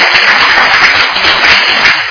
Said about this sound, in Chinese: 好，那我们谢谢他啊，谢谢他的鼓掌。